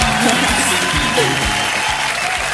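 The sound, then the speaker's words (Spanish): Steady, loud applause from an audience, a dense continuous wash of clapping with voices mixed through it, holding an even level from start to finish. “Y le vamos a dar un aplauso a Pauli”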